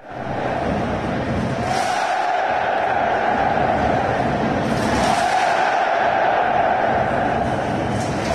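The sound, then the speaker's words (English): Some 55,000 football fans inside the Puskas Arena roar during Hungary against Portugal. The dense, continuous stadium noise stays loud throughout, with brief swells of cheering. “Well, that is the sound of 55,000 fans inside the Puskas Arena for Hungary, Portugal.”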